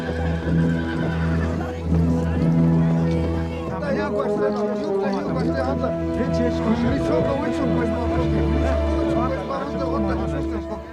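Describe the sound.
Ponies neighing and hoofbeats as a large group of mounted hunters approaches; repeated whinnies ride over a dense, steady rumble that fills the whole clip.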